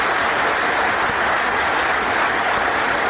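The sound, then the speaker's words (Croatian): Applause from members of parliament of the ruling majority, a loud, continuous wash of clapping that stays even and unbroken from start to finish. “Vučićevo izlaganje ispraćeno je ovacijama i višeminutnim aplauzima poslanika vladajuće većine predvođene njegovom Srpskom naprednom strankom.”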